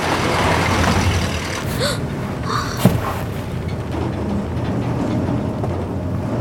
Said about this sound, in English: Keio stares out of the bus window as it passes Nahoko.